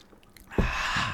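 Someone sips a cup of cocoa, a soft breathy slurping hiss that starts about halfway through and holds steady until the end.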